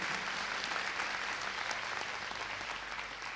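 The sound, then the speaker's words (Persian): Audience applause at a seminar, dense steady clapping that stays even throughout and is fairly faint. “دست خوب برای این جمله زیبا عالی بود عالی”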